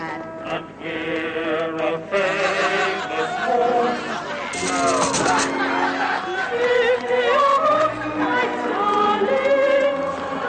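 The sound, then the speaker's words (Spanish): A theatre audience sings and dances in the stalls. Many voices carry a loose, tuneful song with shifting pitch over busy crowd chatter, fairly loud throughout. “En el patio de butacas el público canta y baila.”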